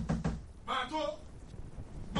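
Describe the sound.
Two dull knocks on a door open the moment, then a voice calls out in response.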